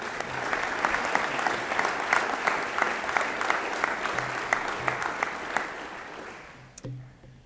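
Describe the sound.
Sustained applause from a church audience welcoming a pastor to the platform at a morning service: dense, steady clapping that gradually thins and fades out over the last second.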